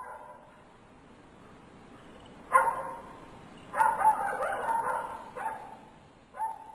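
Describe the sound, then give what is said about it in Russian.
A dog barks loudly in a few short, sharp bursts, with one lone bark first, then a quick run of barks, then two more spaced barks, each standing clear against near silence. “Громкий лай Сиры прервал ее сон.”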